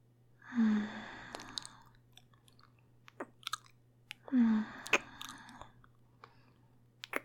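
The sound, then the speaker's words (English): Wet mouth sounds of licking chocolate off cheeks: soft smacks, clicks and lip noises scattered between two breathy sighs, all faint and without speech. “Now, let me start by licking that chocolate off your cheeks.”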